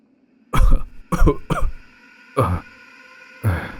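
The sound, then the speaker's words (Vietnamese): An elderly man coughs violently in five harsh, separate bursts: three close together, then two more after short pauses. The coughs are loud and rough, with no speech between them. “Ông lão ho sặc sụa vài tiếng”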